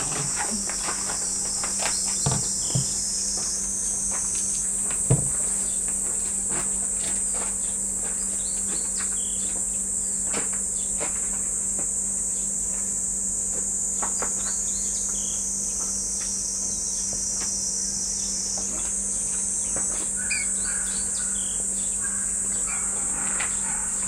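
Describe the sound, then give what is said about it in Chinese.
A big fly buzzes in a loud, continuous, high-pitched insect drone that holds steadily throughout, with faint scattered chirps and clicks beneath it. “都不如这个大苍蝇叫的太狠了。”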